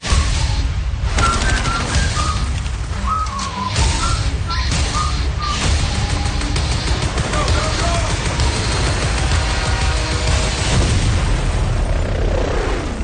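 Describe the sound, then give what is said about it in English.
Gunfire and explosions from an action movie trailer form a loud, dense barrage of shots and booms that runs the whole length without a break. “All this looks so good because it's very loud and much are shooting. Much are dying.”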